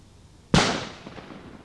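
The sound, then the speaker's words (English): A CO2 bulb bomb explodes in a drain, a single sharp, loud blast that hits suddenly after a quiet moment and then fades in a rough, rumbling tail lasting about a second. “CO2 bulb bomb.”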